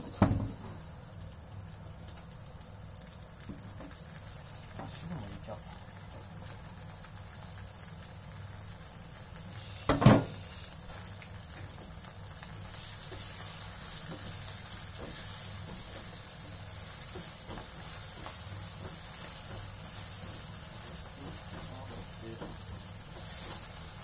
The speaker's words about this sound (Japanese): アンチョビは水分があるんでニンニクのコクが焦げやすいらしいですベーコンも入れてます